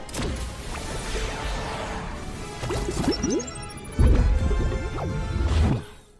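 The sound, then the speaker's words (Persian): Video game grenade throw: a thin rising whistle sweeps upward and ends in a loud, crash-like burst, set within a busy mix of game thuds, splashy hits and swishing effects. “حباب وایسا، حالا کجاشو دیدی؟ نارنجک پرتاب شد.”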